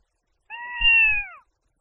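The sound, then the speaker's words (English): A single cat meow, a clear tonal cry lasting about a second that holds steady and then dips slightly at its end, heard alone against silence. “我听到猫叫啊”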